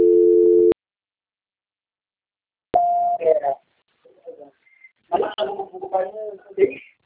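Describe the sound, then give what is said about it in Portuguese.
A telephone call-transfer tone, a single steady electronic beep under a second long, followed by silence, a click and then people talking. “Só um momento, por favor, deixa eu transferir a ligação do senhor. Transferência.”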